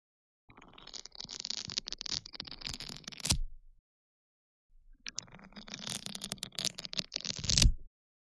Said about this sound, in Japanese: スポンジを3日間僕のスライムで漬け込んで作ったんだ。マッサージだけじゃなくて、今回は音で遊んでみようか。